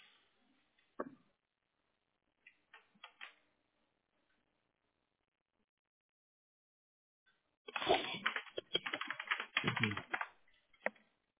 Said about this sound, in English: I'm just trying to type everything in for you.